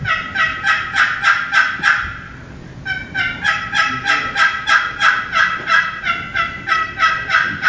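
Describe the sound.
A wooden turkey box call is played at a convention seminar, imitating a turkey with loud, raspy, rhythmic yelps: a short run, a brief pause, then a longer steady series.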